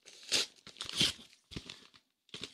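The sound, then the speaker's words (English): A paper mail envelope is torn open in a few short, rough bursts of ripping and crinkling, faint and separated by brief pauses. “There's some mail here from credit card Gordon. And he says, did he send you a credit card? I don't know. I haven't even opened it here. Hold on a second. Want me to open it right now?”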